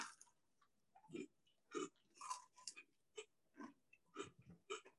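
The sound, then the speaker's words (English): Someone bites into and chews a crumbly Double Stuf sandwich cookie, producing many quiet, crisp crunching bursts in a steady chewing rhythm. “I'm just going to take a bite.”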